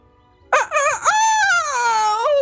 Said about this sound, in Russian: От удара бедняга-петух перевернулся и заплакал от боли.